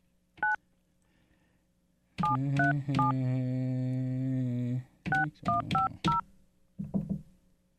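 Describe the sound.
Touch-tone telephone dialing: a run of short, bright two-tone keypad beeps, a long steady tone lasting a couple of seconds, then several more quick beeps in a loose rhythm. No voices are heard.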